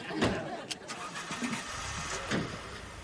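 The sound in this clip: A car engine starting, heard as an uneven mechanical rumble with a few louder bursts as it turns over and catches, holding a fairly steady level.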